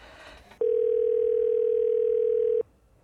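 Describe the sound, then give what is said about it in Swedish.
A single steady telephone ringing tone sounds during an outgoing phone call. It is an even, unbroken mid-pitched beep lasting about two seconds, alone with no voices. “och jag ska ringa till Liv Strömqvist som eh, är i Malmö av någon anledning.”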